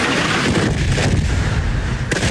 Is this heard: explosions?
yes